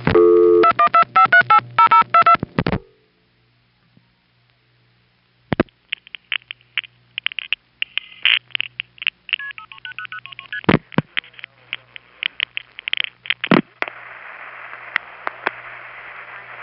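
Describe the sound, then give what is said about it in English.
Multi-frequency digit tones from a telephone exchange send a seven-digit New York City number to a tandem: rapid bursts of paired tones. After a silence come revertive pulse signals with a panel office, many quick clicks and short tones, ending in a steady tone. “It MFs the 7-digit number to Tremont Tandem, and then you hear Tremont Tandem in its revertive pulse conversation with the panel office we're calling.”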